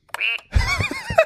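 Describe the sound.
A person's voice imitates a duck with a couple of short, nasal, buzzy quacks in quick succession, heard alone.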